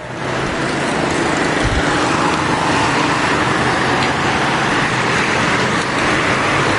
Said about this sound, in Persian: اوه یه ماشین تو کوچه داره میاد بیرون، پارک عجب بد جاست اینجا.